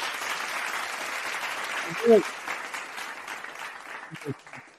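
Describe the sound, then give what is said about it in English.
Applause at the close of a live stream, steady crackling claps at moderate level with a voice briefly heard over it. “round of applause”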